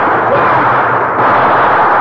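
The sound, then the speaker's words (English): Loud gunfire in a radio drama as soldiers fire at a man escaping downstream: a dense, continuous wall of shots with no clear gaps between them, lasting the whole stretch. “Captain, there he is. Shoot.”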